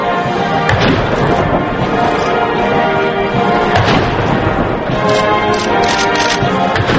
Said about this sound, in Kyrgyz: Коноктун урматына замбиректен 19 жолу салют атылды.